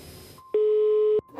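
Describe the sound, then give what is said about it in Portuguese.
A telephone line tone sounds after a number is dialed: one steady, loud electronic beep lasting about two-thirds of a second, set between short stretches of faint line hiss. “Então eu disco o número”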